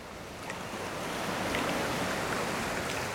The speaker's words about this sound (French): Des vagues, toujours des vagues, mousseuses, bien lisses, vides ou habitées. On n'entend qu'elles parmi ce sourd silence.